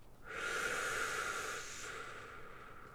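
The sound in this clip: One slow exhale of breath during a guided breathing exercise, a soft airy hiss that swells, holds for over a second and then fades, heard alone without talk.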